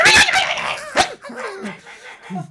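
Dogs barking: a few sharp, loud barks at the start, then fainter whining yelps and whimpers.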